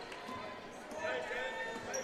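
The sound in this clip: Basketball dribbling on a gym court during a girls' high school game, Woodland vs Ranburne: a run of bounces running under steady commentary talk.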